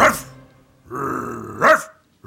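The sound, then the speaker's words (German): A dog barks unusually loudly: a few sharp, forceful barks with a rough, sustained growling stretch between them. The sounds are loud and alone, with no voices. “So laut bellt der Jimmy sonst nie.”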